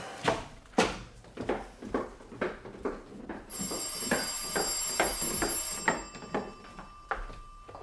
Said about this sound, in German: Das Telefon. Ich gehe schnell runter.